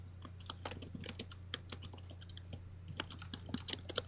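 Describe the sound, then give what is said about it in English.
Typing on a computer keyboard: many quick, light key clicks in an uneven, busy rhythm over a low steady hum, with no voices. “I'm typing something. What is it that you're typing?”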